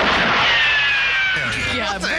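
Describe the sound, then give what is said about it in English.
Cartoon-style gun sound effects from 1966: loud, sustained blasts with thin whining ricochet tones that fall slightly in pitch. “You know how hard it was to record guns back in the 60s and 50s? It's Dave and Mahoney. I just want to give a special shout out to the gun sound effects from 1966.”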